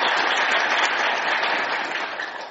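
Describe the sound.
Enthusiastic applause from an audience gathered for a short play about child marriage, a dense, steady wash of many hands clapping that holds loud for the whole stretch and eases off slightly at the end, with no voices over it.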